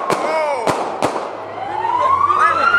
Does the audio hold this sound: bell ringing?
no

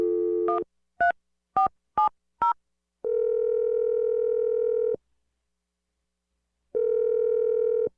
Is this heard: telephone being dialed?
yes

